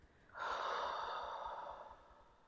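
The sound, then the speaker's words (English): A single deep breath taken during an emotional tapping exercise, a soft airy rush that starts abruptly, holds for about two seconds, then tapers away gently, quiet and alone without speech. “We're going to go to the top of the head, taking a deep breath in and letting it go.”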